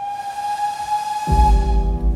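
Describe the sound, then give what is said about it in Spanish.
A train whistle on an Argentine railway holds a steady high tone. Partway through, it swells into a much louder, fuller chord over a deep rumbling hiss. “El ferrocarril en Argentina es un espacio de encuentro”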